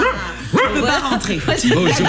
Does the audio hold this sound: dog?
yes